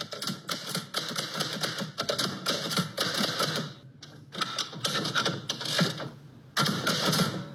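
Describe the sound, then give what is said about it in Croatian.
Typewriter keys strike metal letters onto paper in a typewriter workshop in Melbourne: many rapid clattering strokes in dense bursts, a short pause near the middle, then a louder final burst. “Zvuk pisaćih mašina nekada je bio deo svakodnevnice. U kancelarijama, redakcijama, školama i domovima širom sveta odjekivali su udarci metalnih slova o papir.”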